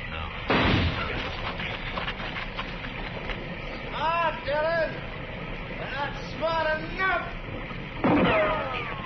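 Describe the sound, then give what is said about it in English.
Two sharp, loud gunshots fired at a tree, one near the start and one near the end, with voices talking in between. “I'm going to flip a shot at the tree, Chester. Roll away as soon as I fire.”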